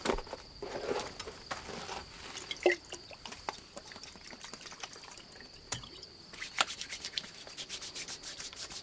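Vigorous rubbing of a young man's icy legs with alcohol: a faint, steady, scratchy friction runs throughout, dotted with scattered sharp clicks and a few moist touches.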